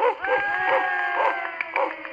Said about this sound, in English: keep them dogs quiet, will you?